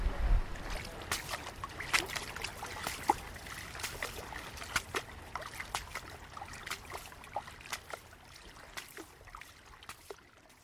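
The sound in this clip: Faint shoreline ambience at Elwood Beach on a fine February day. Gentle water lapping and trickling mixes with soft scattered ticks and splashes in a low, continuous wash.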